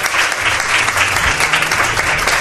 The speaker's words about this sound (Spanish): Pido un aplauso, Miguel, para él.